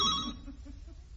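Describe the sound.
A telephone bell rings in one brief, bright burst at the start, then quickly dies away into faint low background noise.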